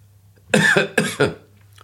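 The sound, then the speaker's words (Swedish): Harsh, hoarse coughing from someone with a heavy cold, two loud rough bursts in close succession, then quiet. “Så ni får ha överseende med att jag hostar med en jämna mellanrum.”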